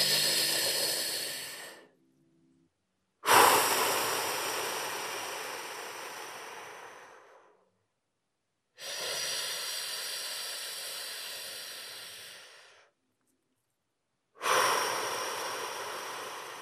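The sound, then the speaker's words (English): Long, slow human breathing: four drawn-out breaths, each lasting several seconds and separated by short silences, with a soft, airy hiss that fades toward the end of each breath. “we can achieve that by these long, slow inhales and long, slow exhales. So if you were listening, all you would hear would be me like...”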